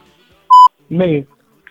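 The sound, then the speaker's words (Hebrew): A single short electronic beep signals players to answer together in a quiz game show. The steady, loud tone is followed moments later by a brief voice. “איך שיש את הזוץ, איך שיש את הצפצוף, לענות יחד.”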